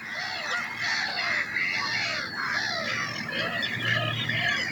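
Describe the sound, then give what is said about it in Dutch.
Greylag geese and pied avocets calling: many overlapping honking and harsh, rasping bird calls in a busy, steady chorus, with no talking. “De grauwe ganzen die wisten er nog net bovenuit te komen, vertelde Marjan. En ook de kluut die liet vlakbij zijn roepjes horen.”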